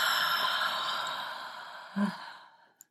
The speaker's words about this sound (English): And let that breath fill your lungs and your abdomen, and then blow it out through your mouth.